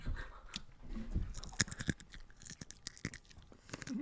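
Chewing trail mix with raisins: many irregular crunches, bites and crackling mouth noises in a dense, uneven stream, moderately quiet, with no talking.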